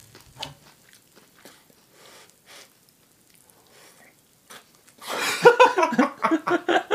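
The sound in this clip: Crunchy chewing of Jagabee potato snack sticks: faint scattered bites at first, then a louder, dense run of rapid crunching bursts over the last two seconds.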